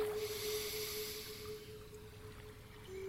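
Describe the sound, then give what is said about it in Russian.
A slow, soft inhale during a calming meditation, heard as a faint airy hiss that fades out over a low sustained tone, with no talking. “Мне жаль, что в моих мыслях и поступках относительно других людей не было любви. Вдох.”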